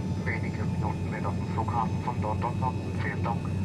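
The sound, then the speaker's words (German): A Boeing 747 jet taking off and flying toward Heathrow produces a steady, fairly faint engine roar, with indistinct voices heard over it. “Zusammen mit Herrn Fuhrer bestieg ich die Boeing 747, die eine halbe Stunde später abhob und Richtung Heathrow flog”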